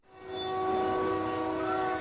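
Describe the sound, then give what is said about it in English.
A train horn blares at Santa Fe Junction in Kansas City, a busy rail crossing where trains run over a maze of bridges above tracks: a steady, chord-like blast that swells up quickly and holds loud and unbroken. “Down here at a place called Santa Fe Junction in Kansas City, train after train negotiates what looks like a maze of bridges over tracks on the ground. About 200 trains a day come through here.”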